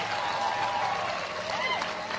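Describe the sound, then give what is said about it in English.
Audience applause at a motivational speaking event, with steady, dense clapping throughout and a voice calling out over it. “Get old man a round of applause.”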